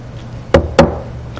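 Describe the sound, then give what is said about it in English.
Two loud, hollow knocks on a locked bedroom door land in quick succession, then quiet follows. “the young woman is in bed, in her room, the door is locked, and she has a knock on the door.”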